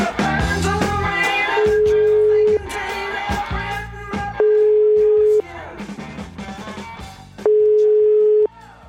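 Telephone ringback tone heard while a call is being placed: three steady one-second beeps at one mid pitch, evenly spaced, with other busy sound filling the gaps between them.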